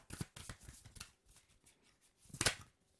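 An oracle card being drawn from a deck sounds as soft papery rustles and light card snaps, faint and intermittent, with a sharper burst of card noise near the end.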